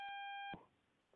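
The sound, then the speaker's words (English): A steady electronic beep cuts across a phone line during a trucking call-in, holding one even tone for about half a second before breaking off abruptly into faint hiss. “We got some weird beep here”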